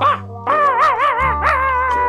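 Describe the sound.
A small Teddy-cut toy poodle barks in high, yelping bursts. One short yip is followed by a run of whiny, wavering barks and whimpers.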